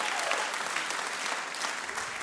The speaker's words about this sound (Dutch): Ja, dat is wel een applaus waard.